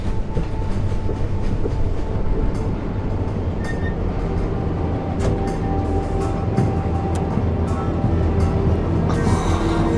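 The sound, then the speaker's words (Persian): A train moves along the rails, a steady low rumble with rhythmic clickety-clack and sharp metallic clicks running throughout, with no voices. “تو کجایی؟ اون صدای چیه؟ من تو قطارم، امشب میرسم شیکاگو.”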